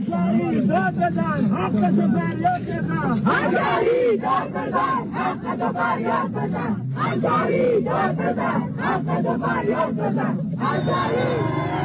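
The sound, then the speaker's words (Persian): Crowd of protesters at the governor's office in Torbat-e Jam, demonstrating against a gas shortage, shouting and chanting loudly and continuously, many voices blending into a dense roar. “ابتدا تصاویر رو ببینید از تظاهرات مردم تربت جام به فرمانداری در اعتراض به کمبود همین گاز.”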